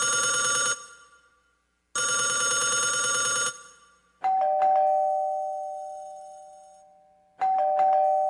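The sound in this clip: An old-style telephone bell rings in two rapid rattling bursts, followed by two ding-dong doorbell chimes whose bright tones ring on and fade slowly.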